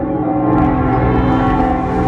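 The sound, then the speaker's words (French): The cathedral bell of Metz rings as a dense, sustained wash of overlapping bell tones, loud and steady throughout with no distinct separate strikes. “les cloches ont sonné pendant de longues minutes. Vous entendez celle de la cathédrale de Metz.”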